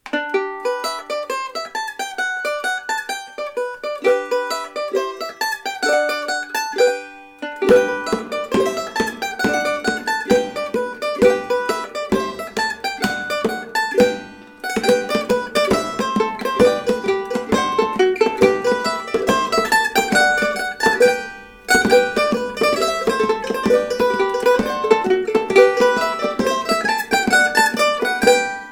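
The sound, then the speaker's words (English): A tune played on a cavaquinho, a small Portuguese string instrument about the size of a ukulele: bright plucked notes carry a lively melody, joined by fuller layered parts after the opening, with a couple of brief pauses. “All the sounds you heard on that recording were made on the cavaquinho, a little Portuguese instrument about the size of a ukulele.”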